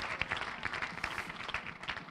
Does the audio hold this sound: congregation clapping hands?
yes